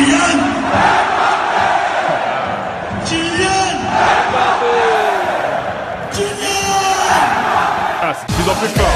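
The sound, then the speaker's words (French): A football crowd at the Parc des Princes roars after a Kylian Mbappé goal. A continuous, loud wall of cheering, yelling and whooping holds throughout, with shrill whistles cutting through at points. “Écoutez l'ambiance au parc après un but de Kylian Mbappé.”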